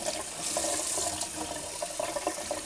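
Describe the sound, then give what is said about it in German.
Running tap water as a cloth is rinsed under it, giving a soft, steady hiss with small irregular splashes and gurgles throughout, fairly quiet. “spüle ich noch den Lappen kurz aus”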